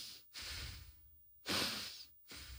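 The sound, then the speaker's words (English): Slow, deep breaths are drawn in and out through the nose during a guided breathing exercise. A few soft, airy rushes alternate with brief silent gaps, and the strongest breath falls midway. No one speaks. “I want to just start by breathing in through the nose, out through the nose, and you're going to follow my lead.”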